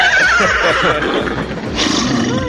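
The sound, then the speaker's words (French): A man imitating a horse neighing gives a loud, wavering, high whinny that fills about two and a half seconds, breathy and rough throughout, with no other voices. “fais le cheval.”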